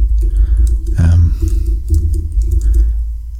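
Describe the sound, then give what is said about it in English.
Computer keyboard keys clatter in quick, irregular bursts of typing during a Google search, with talk going on over the keystrokes. “Let me just type this in. Sounds like you're Googling. I am Googling.”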